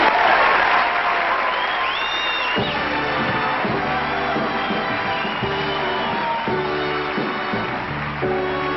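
Audience applause and cheering as Frank Sinatra is welcomed to the stage: loud, continuous clapping from a large crowd fills the whole clip.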